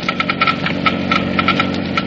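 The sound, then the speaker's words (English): A Geiger counter clicking slowly as it measures the wear rate of auto engine parts lubricated with a new motor oil: many irregular, sharp clicks over a steady, loud low hum. “First, let's listen to the Geiger counter slowly click off the low wear rate of new RPM.”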